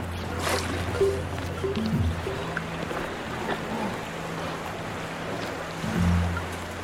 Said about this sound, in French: On entendait le bruit des vagues qui se brisaient sur la grève.